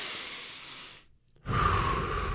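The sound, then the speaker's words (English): A deep breath: a long airy inhale, a brief silent pause, then a louder, fuller breathy exhale, alone with no talk. “Take a deep breath.”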